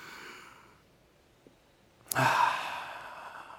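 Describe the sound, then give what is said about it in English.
People at a church gathering breathing in deeply together, heard as one soft, breathy rush. It starts sharply after a quiet stretch, swells, and stays full to the end. “I want everybody to just breathe in.”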